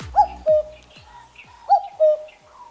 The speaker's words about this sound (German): Das ist der Kuckuck.